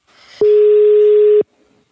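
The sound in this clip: Telephone ringing tone heard while calling someone: one steady, mid-pitched tone lasting about a second, starting and stopping abruptly, alone over faint hiss.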